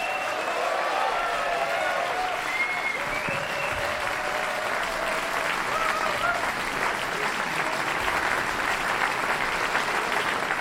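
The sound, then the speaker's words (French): Jazz concert audience applauding wildly in the Salle Paderewski, Casino de Montbenon, Lausanne, after a festival duo performance: a dense, steady roar of clapping that holds at full strength throughout, with faint voices mixed in. “Le public en délire de la salle Paderewski au casino de Montmenon à Lausanne.”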